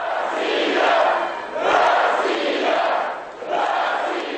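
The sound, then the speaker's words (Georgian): A stadium crowd shouts and chants as Putin arrives, rising and falling in three broad, loud, rhythmic surges of massed voices. “პუტინის მისლას კი შეძახილებით შეხვდა სტადიონი.”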